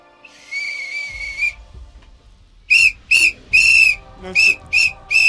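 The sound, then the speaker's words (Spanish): A whistle is blown hard: one long shrill blast, a pause, then six short sharp blasts in quick succession, each piercing and loud. “¡Ese es el silbato infernal!”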